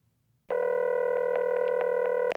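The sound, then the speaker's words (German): A telephone line tone plays as a hotel guest calls the front desk. A steady, buzzing harmonic tone holds for about two seconds, with a few faint clicks along the way, and then cuts off abruptly. “Herr Thompson ruft die Rezeption an und beschwert sich, weil der Fernseher nicht funktioniert.”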